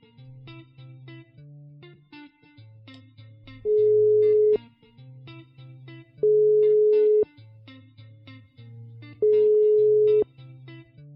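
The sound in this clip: Ringback tone on an outgoing telephone call: three steady, loud electronic tones of about a second each, evenly spaced, over quiet background music.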